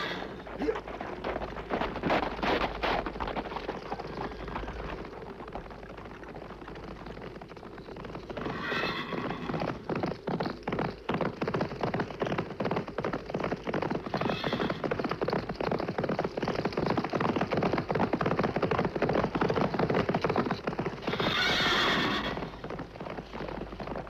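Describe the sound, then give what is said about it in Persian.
A horse approaches with a steady, rhythmic clip-clop of hooves that runs throughout. Three loud whinnies break over the hoofbeats, the last one the longest. “از کدام این سو؟ از آن طرف میآید. صدای سم اسب است.”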